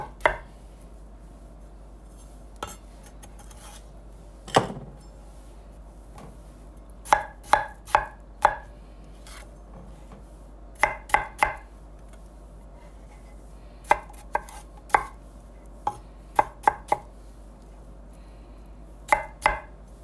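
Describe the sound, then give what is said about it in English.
A knife chops strawberries and blackberries, halving the berries. Many crisp, sharp taps come in irregular clusters with short pauses between them, with no talking. “All right, strawberries are in the bowl. In the bowl. Now we got blackberries, and mm-hmm. I just half them.”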